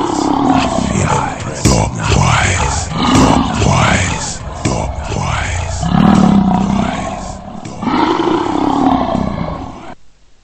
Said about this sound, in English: With the roaring lion